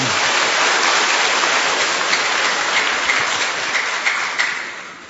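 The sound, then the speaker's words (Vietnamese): Applause from an audience at a church Mass as they welcome a woman, the superior general of a religious order. The clapping is dense and steady and holds at full strength before tapering off slightly at the end. “Chúng ta vỗ tay hoan nghênh với chị.”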